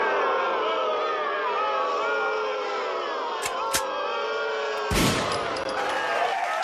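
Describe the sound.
A gunfire sound effect is played from a soundboard: a couple of sharp cracks cut through a dense, roaring crowd-like wash, and a heavier blast follows near the end.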